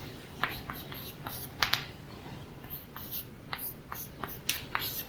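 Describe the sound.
Faint writing on a board, heard as a series of quiet, irregular taps and short scratchy strokes over a low steady hum, with no voices.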